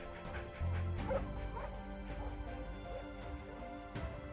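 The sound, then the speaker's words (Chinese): A mud-covered dog gives a short, whimpering howl with a few yelping notes over a low, rumbling noisy background. “狗又嗷呜一声，这才抖去满身的泥水”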